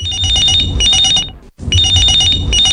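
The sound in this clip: Telephone ringing with an incoming call to a studio phone-in line, two loud bursts of high, trilling ring separated by a brief silence, with no voices.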